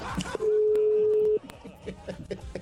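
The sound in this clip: Ringback tone of an unanswered phone call placed late at night: a single long, steady mid-pitched tone lasting about a second. Voices and light laughter murmur around it.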